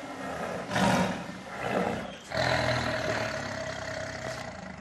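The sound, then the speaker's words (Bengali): Tiger roaring in a wildlife sanctuary within a city park in Washington: a few deep, rumbling roars that swell and fade over a steady low background. “White হাউসের অদূরে শোনা যাচ্ছে বাঘের গর্জন।”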